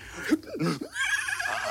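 A person imitates a horse neighing during a guessing game, giving a short whinnying vocal call with wavering pitch that is followed by softer, breathy noise.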